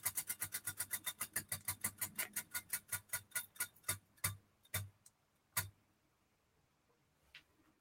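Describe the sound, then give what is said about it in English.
A prize wheel spins and ticks. Rapid, regular clicks gradually slow and spread apart, then a few isolated final ticks sound before the wheel stops. “we're going to go ahead and spin the wheel”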